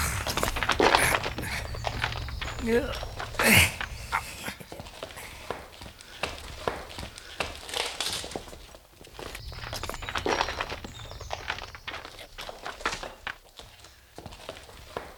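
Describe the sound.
Footsteps walking into a cave, many irregular, crunching steps on rough ground that vary in loudness throughout, with a few heavier thuds standing out among them.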